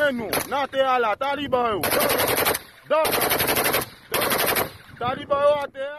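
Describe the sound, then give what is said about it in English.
A barrage of semi-automatic rifle fire near the international airport in Port-au-Prince, Haiti, comes as three loud, sustained bursts of rapid shots. Raised voices are heard before and after the bursts. “they shut down the Toulouse-Louverture International Airport in the capital, Port-au-Prince, with this barrage of semi-automatic rifle fire”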